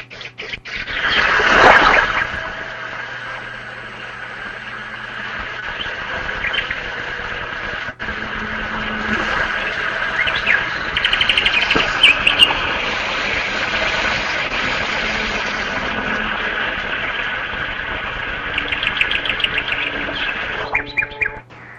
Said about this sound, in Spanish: voy a poner sonido de pajarito y después voy a explicar por qué el mar tranquiliza. Mira, escucha esto.